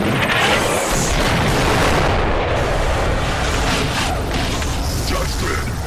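Booming cartoon cannon fire and weapon explosions form a loud, dense, continuous roar of blasts and rumble that fills the whole stretch without a pause.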